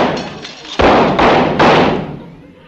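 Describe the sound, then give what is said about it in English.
Gunshots fired at a man in a radio drama, three loud, dull bangs in quick, even succession, each ringing briefly, with softer knocks before them. “I threw at least 3 slugs right through his shoulder.”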